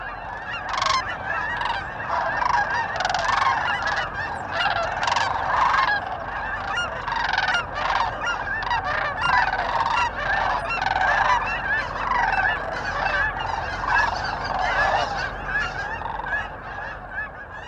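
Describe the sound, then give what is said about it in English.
Sandhill cranes call at their nesting site, many loud honking calls overlapping in a steady, continuous chorus with no pause and no talk. “I went to a place where there were a bunch of sandhill cranes nesting, and I had a blast photographing with them with my new gear.”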